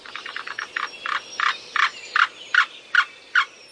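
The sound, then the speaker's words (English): A black-billed cuckoo calls in a run of hollow, clucking notes. A quick burst of short notes gives way to slower, evenly spaced, longer notes, fairly loud with no other sound. “And here's the black-billed cuckoo.”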